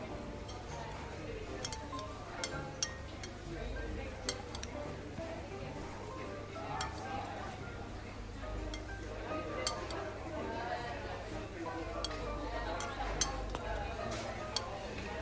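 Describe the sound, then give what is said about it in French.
Faint clinks and light taps of a utensil against a bowl as apple slices are tossed with cinnamon for an apple pie, scattered irregularly over a quiet, steady background. “Ajoutez la cannelle. Et mélangez pour enrober les pommes.”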